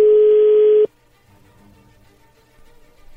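A steady telephone tone sounds as a call is dialed. It holds at one pitch for under a second, then cuts off abruptly, leaving faint line noise.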